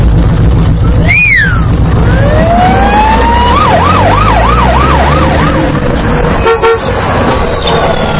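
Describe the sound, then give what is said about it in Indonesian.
A police car siren sweeps up in a rising whoop, then settles into a rapid up-and-down wail that repeats several times. It is loud throughout, with a short sharp toot near the start and a low engine rumble underneath. “Sayyaratu syurtah. Sayyaratu syurtah. Sayyaratu syurtah.”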